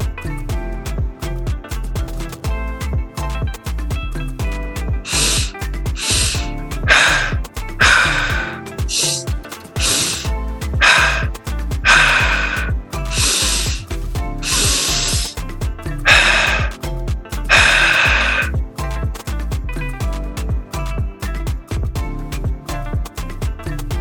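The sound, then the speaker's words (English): Breathwork with rapid, sharp inhales and exhales cycling in pairs, audible as a long run of breathy bursts through the middle of the passage, laid over soft sustained music that continues underneath from start to finish. “Continuing to cycle, two inhales, then two exhales,”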